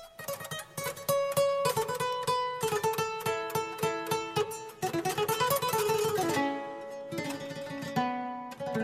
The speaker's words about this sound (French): c'est le son de son papa, égrenant les cordes de la kora.